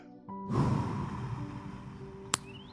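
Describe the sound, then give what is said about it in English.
A deep, relaxing breath: a loud airy rush swells in and slowly tapers away, followed by one sharp click. “Let's take a deep, relaxing breath.”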